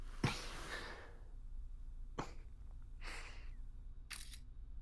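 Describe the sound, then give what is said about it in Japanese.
Camera shutter clicks as a selfie is taken: four sharp, brief snaps spread over a few seconds, the first the loudest, over a faint steady low hum. “彼女が俺の家に遊びに来た記念、自撮りの練習ってことで。の、結構うまく撮れてる。”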